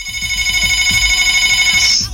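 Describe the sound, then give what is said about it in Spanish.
A telephone rings for an incoming call, giving a loud, steady electronic tone with bright harmonics that cuts off near the end, over soft low thumps. “contéstale a ver a esta persona que me estaba llamando”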